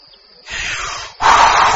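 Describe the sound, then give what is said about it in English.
Breathy whooshing blasts stand for a wolf blowing a house down in a children's story. There are two hissing gusts. The second is louder and brighter than the first, and no talk is heard over them. “The wolf blows the house down.”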